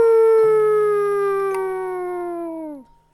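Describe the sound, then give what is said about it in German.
A voice imitates a wolf in a long, tonal howl in a school class's audio drama. The single sustained cry holds a strong tone whose pitch slides slowly downward before breaking off near the end. “Nachts begann er zu heulen wie ein Wolf.”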